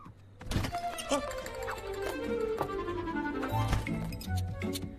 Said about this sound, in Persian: اون یه شیشه مرباس که خالیه.